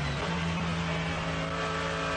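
A race car on a circuit, exiting a corner behind slower-class cars, gives a loud, continuous engine drone with strong steady harmonics and a small rise in pitch near the start.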